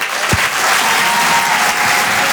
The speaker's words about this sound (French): Faites un maximum de bruit, s'il vous plaît, pour Alexandra Roth.